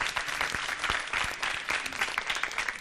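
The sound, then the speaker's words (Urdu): Loud applause from an audience cheering on a team in a spoon challenge at a live competition. Dense, continuous clapping holds a steady level throughout. “ان کی بھی حوصلہ افزائی ہونی چاہیے زوردار تالیوں کے ذریعے۔”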